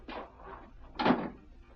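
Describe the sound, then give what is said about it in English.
A house door is shut in a chilly farmhouse, heard as a soft scrape followed about a second later by a firmer, louder thud. Both sounds are faint and alone. “Shut the door”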